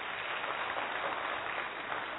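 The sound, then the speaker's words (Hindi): Audience applause for an officer at a talk, a dense and steady wash of clapping that runs evenly from start to end, sounding slightly dull and muffled. “ताली बजा सकते officer के लिए जी”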